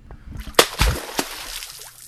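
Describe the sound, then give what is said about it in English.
An American beaver in Virginia smacks its paddle-like tail on the water, giving a few sharp, splashy slaps amid low sloshing and gurgling. “American beavers, now found across Virginia after reintroduction starting in the 1930s, smack their paddle-like tail on the water as a defensive behavior to protect a colony's territory.”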